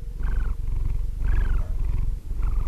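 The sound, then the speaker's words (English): A sleeping cat purring: a continuous low rumbling vibration that swells in a few rhythmic breathing cycles, steady and fairly loud throughout with no other sounds. “This was the sound of my cat, Sammy, sleeping.”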